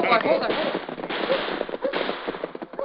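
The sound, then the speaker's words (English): Gunshots from a gunfight with men firing from a house ring out as many sharp, rapid cracks in irregular clusters, thin and band-limited, with voices mixed in among the shots. “Golly, what's all the shooting for?”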